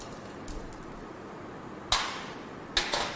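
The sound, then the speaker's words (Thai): Two sharp clicks as the last hidden screw is undone from a plastic cover, each a quick snap with a short tail, separated by under a second over a faint steady background. “ถอดพลาสติกออกนะครับก็จะเห็นน็อต1ตัวที่ซ่อนอยู่นะครับทำการถอดน็อตขอครอบตัวสุดท้ายนะครับออก”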